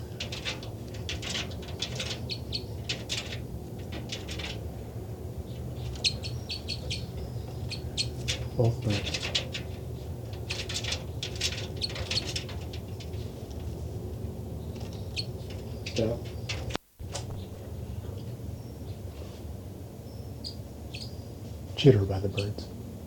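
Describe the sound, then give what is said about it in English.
Two birds calling and answering each other, one flying across: a few short calls rise above steady background noise, with a louder call near the end. “273 there. Both birds. 273, 274 responded.”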